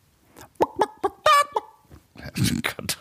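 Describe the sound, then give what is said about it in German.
A person vocally imitates a cricket imitating a sheep imitating a rooster: a string of short chirpy bleats, one longer wavering cry in the middle, and a rougher burst near the end. “Das ist eine Grille, die ein Schaf nachmacht, was wiederum ein Hahn nachmacht.”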